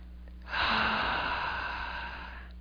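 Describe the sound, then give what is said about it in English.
A single deep breath, drawn in steadily and released as a long, broad airy exhale that fades slowly, heard alone during a guided relaxation. “Take a nice deep breath.”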